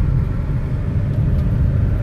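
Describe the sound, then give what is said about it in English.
Steady low rumble of a car driving home on the road: continuous engine and road noise, even in loudness throughout, with no voices. “You're listening to the sounds of the drive home with your grandpa Cletus.”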